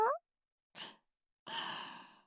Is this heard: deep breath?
yes